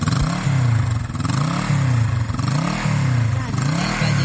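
Suzuki DR160X motorcycle engine revving, with several quick, repeated surges that swell and ease in a steady rhythm, loud and continuous with no one speaking.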